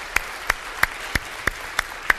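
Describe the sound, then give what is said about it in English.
Seven sharp, evenly spaced claps from a church audience, striking in unison at a steady rhythm over a faint background hum. “can we just give them a hand clap?”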